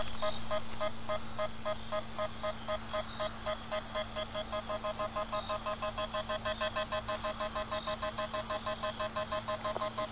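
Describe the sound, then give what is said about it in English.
A Ghost Meter Pro paranormal detector beeps rapidly in the woods, a fast, insistent stream of high electronic bleeps over a steady low hum that continues unbroken and fairly faint. “The Ghost Meter Pro is going absolutely crazy.”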